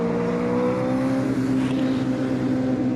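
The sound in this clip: Steady droning hum of a car engine while driving, in a car with no power steering; the tone stays fairly even, with no voices.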